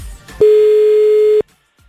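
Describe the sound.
A single steady telephone ringback tone sounds as a call is placed to a contestant in a phone-in contest. It holds one even, mid-pitched tone for about a second, alone, then cuts off sharply.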